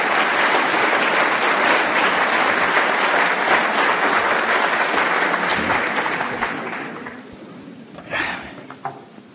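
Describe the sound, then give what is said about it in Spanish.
An audience applauds an engineer at a research centre's 50th anniversary ceremony: dense, steady clapping holds loud for about six seconds, then thins and fades away. “Un fuerte aplauso para el ingeniero, por favor.”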